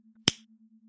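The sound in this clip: A single finger snap, sharp and very brief, over a faint, steady low hum.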